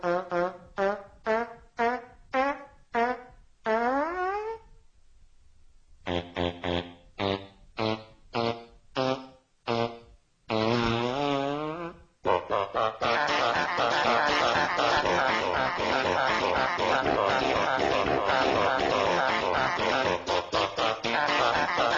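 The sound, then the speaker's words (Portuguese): Buzzy, pitched fart noises play a banjo tune as a parody of a film scene. Short rhythmic notes are broken by a brief pause, then give way to a fast, continuous run of wavering tones. “Que o Peter Griffin deu de banjo. É isso com peidos. Põe um trechinho pra você ouvir aí, ó.”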